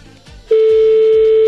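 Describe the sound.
A telephone ringback tone as a call rings out: one loud, steady, mid-pitched tone starts partway in and holds unbroken to the end, over faint low background noise before it.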